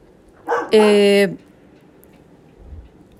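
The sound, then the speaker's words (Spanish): A dog barks once, a single drawn-out, harmonic yelp of steady pitch lasting under a second, with faint background noise around it. “mi perro ya les había dicho que ladra a esta hora y me distrae muchísimo”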